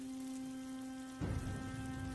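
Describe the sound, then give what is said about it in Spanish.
Rain falls on a man eating soup outdoors. A soft patter sits over a steady tone, then turns abruptly louder and denser partway through. “Señor comiendo sopa bajo la lluvia se llama el video. Disfrute. Ahí va.”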